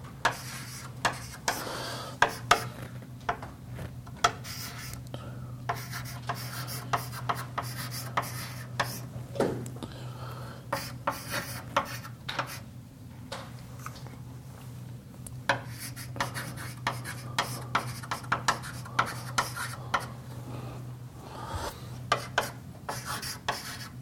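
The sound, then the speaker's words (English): Equations being written out by hand, with many short scratching and tapping strokes arriving in irregular bursts over a steady low hum, interrupted by brief pauses. “And I'll write it in a slightly different form.”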